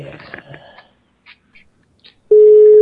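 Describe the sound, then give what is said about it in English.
A telephone tone sounds while someone dials a Swedish number. Muffled talk and a few faint clicks come first, then a loud, steady tone cuts in and holds to the end. “Is this one you're dialing? Is that the Swedish number you're dialing there?”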